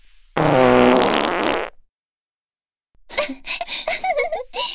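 A loud, sustained fart lasting over a second, a deliberate simultaneous double release from two people, followed after a brief silence by giggling and laughter.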